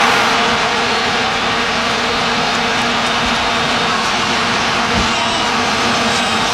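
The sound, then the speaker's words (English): Vuvuzelas blaring at a 2010 World Cup football match in South Africa: many plastic horns at once make a loud, unbroken droning buzz on a steady low pitch throughout. “Here's a reminder of how obnoxious they were at the 2010 World Cup in South Africa.”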